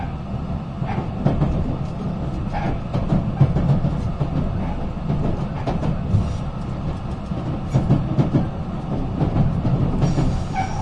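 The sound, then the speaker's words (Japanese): Steady, loud rumble of a Super Azusa limited express train bound for Matsumoto running on rails, with rhythmic wheel clicks over the joints riding on a continuous low roar that holds unbroken throughout. “この列車は特急スーパーあずさ19号松本行きです。”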